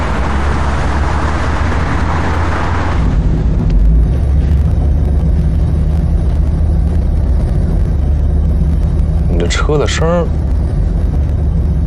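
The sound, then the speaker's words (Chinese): A car engine idles with an unusual exhaust roar, in a car that may be overdue for an oil change: a steady low rumble runs throughout, with a broad hiss over it during the first few seconds. “车的声儿好像听着不太对。嗯，有吗？啊，怎么还有声浪呢？”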